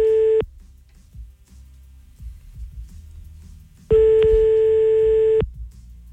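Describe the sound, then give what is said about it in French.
A French telephone ringback tone while someone's daughter is being called: a steady mid-pitched beep cuts off at the start, then a quiet gap with faint background noise, then a second even tone about one and a half seconds long. “C'est parti, on appelle sa fille.”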